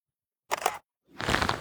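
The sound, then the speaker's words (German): Camera shutter sounds come from a photo being taken of a path on the way up to the Marienhöhe. Two faint, brief mechanical bursts occur, with the second one longer and fuller than the first. “Muss jetzt auch schnell noch ein Foto machen vom Weg.”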